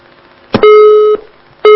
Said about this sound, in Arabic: عفوا الخط انقطع وننتظر اتصال حضرتك تاني